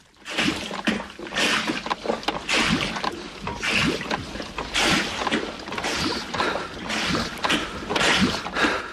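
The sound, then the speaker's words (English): A large hand-pump lever on a schooner forces water out of a protruding pipe: many rhythmic surges of gushing, splashing water at a steady back-and-forth pace, moderately loud. “He pushes it back and forth. Water comes out of a pipe which juts out from the schooner.”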